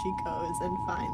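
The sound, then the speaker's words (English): An emergency alert sound plays in the background, a steady, high pure beep sustained throughout under someone talking. “And, like, that emergency alert sound that was just in the background just goes off.”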